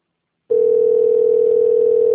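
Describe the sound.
Ringing tone on an unanswered telephone call, a loud steady single-pitched hum that starts abruptly and holds unbroken to the end, with no voices.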